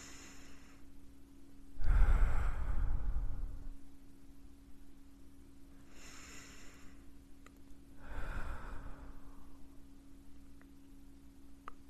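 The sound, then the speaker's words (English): Slow, deep breathing in through the nose and out through the mouth during a guided relaxation: a few soft, airy breaths, two of them louder and longer, over a steady low hum. “Deep breath. In through your nose and out through your mouth.”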